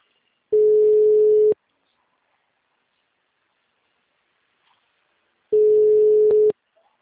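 A telephone ringback tone heard while placing a call: two steady, mid-pitched one-second tones separated by a long silence of about four seconds, clean and fairly loud, with no voices.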